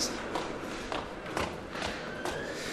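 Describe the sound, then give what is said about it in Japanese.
Footsteps climbing stairs in a Nagoya subway station with island platforms: soft, evenly paced steps that land about every half second and sit low under a steady wash of station noise. “階段上がります。”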